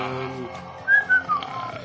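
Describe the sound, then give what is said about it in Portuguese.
A voice imitates a woman whistling a tune while sweeping with a broom: a brief low voiced sound, then three short, clear whistled notes, each a little lower than the one before. “A mulher entrou com a vassoura, assobiando isso.”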